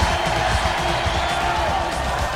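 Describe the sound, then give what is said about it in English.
A crowd cheering at a baseball game, with a steady roar of many voices and scattered whoops that stays level throughout. “She looks around at the cheering crowd.”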